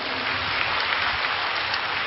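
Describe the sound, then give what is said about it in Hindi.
Applause from an audience clapping for everyone at a gathering: dense, steady clapping that holds an even level throughout, with no talk over it. “Very good, अब सबके लिए तालियां बजाओ”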